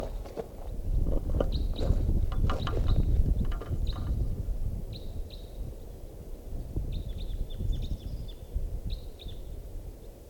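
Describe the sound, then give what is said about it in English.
Short, high-pitched crossbill call notes, type 4 red crossbill, repeat in loose bursts over a steady low rumble of wind or traffic and scattered faint bird chirps. “At 5 a.m., here comes a crossbill.”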